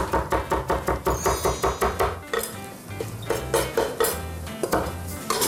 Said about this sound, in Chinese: 豆皮切丝